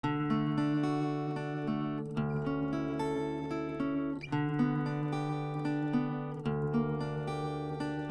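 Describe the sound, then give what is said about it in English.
Fingerpicked acoustic guitar, individual notes of a chord plucked one at a time in a repeated pattern, ringing clearly, with the chord changing a few times. “One style is called finger picking. Okay. And that's when you play individual notes in a repeated pattern and sort of break up a chord. And that sounds like this.”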